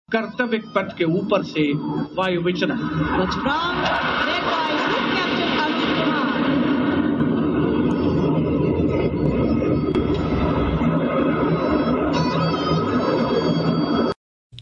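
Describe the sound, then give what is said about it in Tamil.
Sustained jet roar from a flypast of 29 aircraft during a parade's aerial display on Kartavya Path: a loud, dense rumble after a few sharp opening bursts, holding steady for about fourteen seconds before cutting off abruptly. “அணிவகுப்பின் முத்தாய்ப்பாக அனைவரும் மிகவும் எதிர்பார்த்திருந்த வான் சாகச நிகழ்ச்சியில் 29 விமானங்கள் வான் மண்டலத்தை அலங்கரித்தன.”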